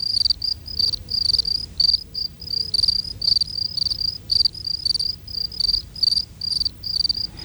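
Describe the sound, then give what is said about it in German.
Three field crickets chirp together at midday, one sitting in shade and singing more slowly than the two in warm sunlight. Their many high, shrill chirps repeat in a steady, overlapping rhythm, with no voices. “Es müsste euch bei dem Chor der drei Grillen nämlich etwas auffallen.”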